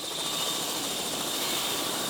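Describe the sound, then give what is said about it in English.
A private helicopter in flight above a farm, giving a dense, steady rotor and engine roar that stays even and unbroken throughout. “Now I've climbed into the farm's private helicopter, and from the sky, it's hard to tell that these white blocks below us aren't buildings.”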